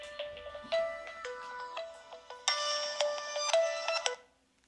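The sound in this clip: An electronic phone ringtone sounds for an incoming call. A bright, melodic pattern of high beeping tones repeats in quick phrases for about four seconds, then cuts off.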